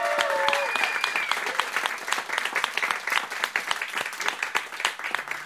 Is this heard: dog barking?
no